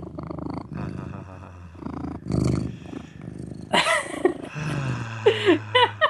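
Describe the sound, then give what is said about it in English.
A cat purrs right into a microphone with a low, rumbling, pulsing drone. Louder irregular bursts with some higher-pitched sounds come in toward the end. “You can all get the soothing sounds of cat purrs.”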